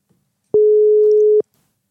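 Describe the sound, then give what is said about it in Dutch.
Telephone ringback tone heard while placing a call to a diabetes expert: one loud, steady, unbroken beep lasting under a second, with silence before and after it. “Bellen met een diabetesexpert.”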